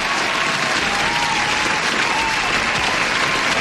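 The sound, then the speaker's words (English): Audience applause, a dense, steady roar of clapping hands that stays loud and even throughout without a break. “Big, massive, huge round of applause”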